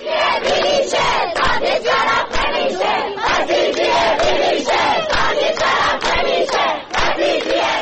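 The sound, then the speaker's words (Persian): Protest chanting by students of Razi University in Kermanshah: a loud mass of voices shouting in a steady, driving cadence, syllables hammered out in rapid, repeated rhythmic bursts throughout. “صدای دانشجویان دانشگاه رازی کرمانشاه.”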